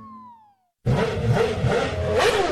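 A motorcycle engine revs hard as the throttle is opened, making a loud, sustained roaring drone. It follows a brief falling tone and a moment of silence.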